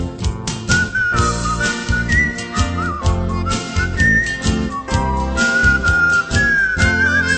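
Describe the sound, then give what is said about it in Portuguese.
A person whistles a flowing melody over full instrumental band accompaniment, the clear wavering tone holding long notes and sliding between pitches, steady and prominent throughout. “Assobiando sempre esta melodia”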